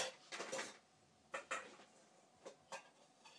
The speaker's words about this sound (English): First and foremost, I'm going to get a bowl.